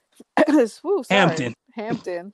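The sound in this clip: Throat clearing from someone who has something caught in their throat: a few loud, voiced, rasping bursts in quick succession, each with a throaty, gravelly edge.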